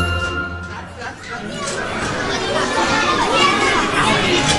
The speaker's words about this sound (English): As we carried our lunches to a nearby table, a group of loud, rowdy kids was congregating.